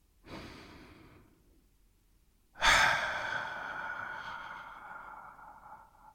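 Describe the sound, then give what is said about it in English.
A deep breath is taken slowly: a soft, airy inhale, a brief pause, then a longer and louder sighing exhale that gradually trails away. No talk is heard. “And if you're ready, let's take a deep breath.”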